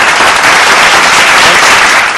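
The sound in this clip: Loud, dense applause for a caller's correct quiz answer, a steady roar of clapping that holds at full strength and tapers at the end.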